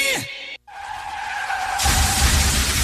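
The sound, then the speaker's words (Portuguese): Car tires screeching in a skid, a sound effect in a vehicle insurance advert, with a sustained high whine that gives way to a loud, dense roar of noise. “Eita, não sei de quem é culpa, mas esse aí é prejuízo. Acidentes acontecem, seja um esbarrãozinho a uma colisão séria.”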